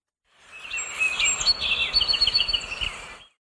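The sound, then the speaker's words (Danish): Song of a song sparrow, a small brown North American bird with a grey and brown striped head: a few clear, high whistled notes, then a rapid bright trill over a low background rumble. “Det er lyden af en nordamerikansk sangspå, en lille brun fugl med et gråt og brunstribet hoved.”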